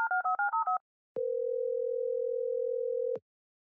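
Five quick telephone keypad tones beep in rapid succession as a phone is speed dialed, followed by a steady tone lasting about two seconds; no voices.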